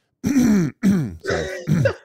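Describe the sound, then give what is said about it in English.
Someone clears their throat loudly in four rough, voiced bursts separated by short pauses, each a gruff, rasping rumble. “Let me clear my throat real quick for this.”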